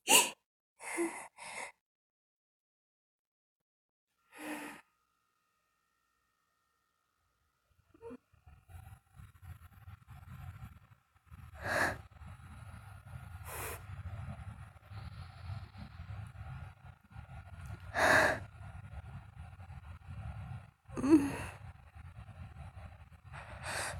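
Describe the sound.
Heavy breathing comes as a few loud, gasping breaths early on. Later a low rumbling background sets in, and several more strong breaths rise above it at irregular intervals.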